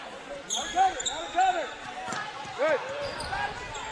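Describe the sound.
A basketball is dribbled on a court during a game, giving a few thumping bounces mixed with high squeaks over steady background noise.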